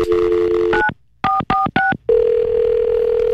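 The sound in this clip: Telephone tones as someone places a call to an embassy: a steady dial tone, then four short dual-tone keypad beeps with brief gaps, then another continuous tone that holds to the end.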